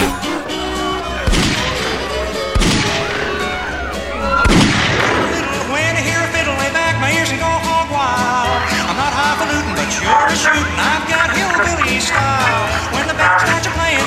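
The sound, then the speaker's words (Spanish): Gunfire as police shoot a man who had stabbed six people on a crowded bus: a few sharp, loud bangs stand out from dense, noisy sound, with voices heard throughout. “La policía lo abate a tiros.”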